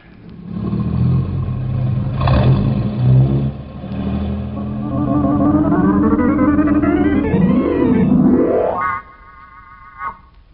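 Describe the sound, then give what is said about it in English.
A car engine revs and accelerates on a test course toward a stop marked by diagonal yellow markers. Its whining pitch climbs steadily, then cuts off abruptly near the end, leaving a faint steady tone and one short sharp burst. “You will then brake your car to a complete stop with the front wheels as close to the diagonal yellow markers as you can possibly get them.”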